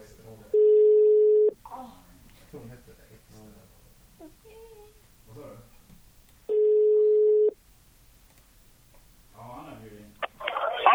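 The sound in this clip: A telephone ring signal sounds while someone is being called: two long, steady electronic tones, each about a second long and several seconds apart, with people talking in the gap between them.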